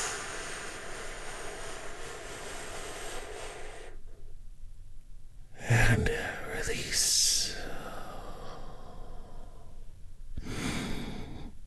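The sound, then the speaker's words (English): Deep, slow breaths are drawn during a guided relaxation exercise, an audible inhale followed by a long airy exhale and then another breath. The breaths are soft and hissy, with quiet speech beforehand. “Join me in taking a big, deep healing breath right now.”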